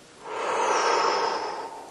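A long, soft exhale through the nose after a held breath during a relaxation exercise. The breathy hiss swells and then fades over about two seconds, with no talking.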